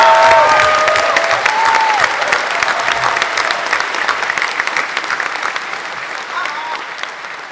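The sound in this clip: Loud applause from a convention audience at the SFX Weekender sci-fi event, thick and sustained, with a few brief whoops near the start, then easing gradually toward the end.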